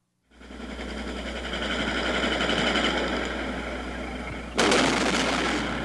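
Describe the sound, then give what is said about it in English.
Gunfire close by during unrest in Detroit, with fires burning, comes as dense, rapid crackling over continuous noise. A louder burst breaks in near the end. “They're firing very close.”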